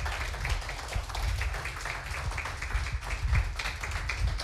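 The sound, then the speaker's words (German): An audience claps at a poetry slam in Heide. Many hands make a fairly quiet, continuous patter of clapping that stays dense and even across the whole stretch. “Macht bitte einmal ein Geräusch mit euren Händen, damit unsere Poetinnen und Poeten da hinten hören, dass ihr da seid.”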